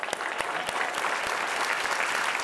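Church audience applauding to welcome a guest pastor; dense, even clapping runs throughout, with several sharper individual claps standing out from the crowd.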